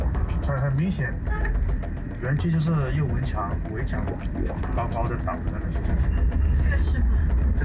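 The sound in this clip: A car drives past scam compounds in Myawaddy, Myanmar, its steady engine and road rumble running throughout beneath people talking.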